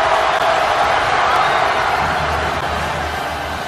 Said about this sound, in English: and with the noise you hear, the Temple students storming the court.